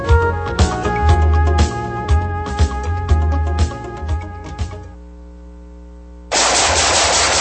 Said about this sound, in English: Nice shooting.